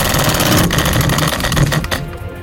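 A prize wheel spins during a game show, giving off a loud, dense run of rapid ratcheting clicks that rattle steadily for about two seconds before thinning out near the end.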